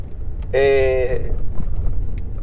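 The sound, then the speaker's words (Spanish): Low, steady rumble inside a car, a constant deep hum of engine and road noise filling the whole stretch with little change. “Eso quiere decir que estoy grabando ahora en este momento en mi carro.”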